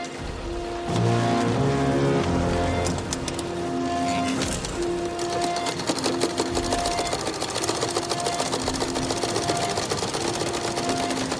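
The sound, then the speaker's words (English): Sewing machines run in a World War I film scene of women repairing dead soldiers' uniforms: a rapid, continuous mechanical rattle under an abrasive, droning musical score with sustained tones. “we see women repairing the uniforms of dead soldiers so they can be recycled for new recruits who themselves are just products of recycling. So you're going to hear the sewing machines in this clip and also the abrasive score that recurs throughout the film.”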